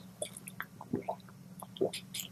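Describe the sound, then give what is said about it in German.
A person pauses mid-conversation for a quick sip of a drink: faint, soft wet squishes and a couple of small gulps and mouth clicks, with no talk. “Sekunde, ich muss kurz was trinken.”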